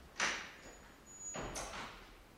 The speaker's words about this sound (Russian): Закройте дверь.